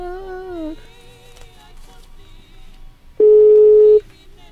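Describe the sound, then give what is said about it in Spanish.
A telephone call to a listener connects on the line for live airing on a radio program: quieter tonal sounds come first, then one loud, steady, mid-pitched ring tone lasting under a second. “para marcarle por teléfono a esta personita y esperar a que se enlace la llamada telefónica”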